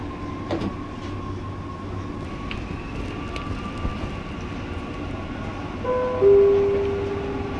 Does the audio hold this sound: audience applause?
no